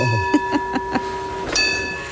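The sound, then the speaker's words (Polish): A bell rung to imitate a tram bell: four quick, light, ringing dings, then a louder, sustained ring that slowly fades. “Proszę się nie przejmować, wszyscy słuchacze w samochodach. To byliśmy my, a nie tramwaj za Państwem.”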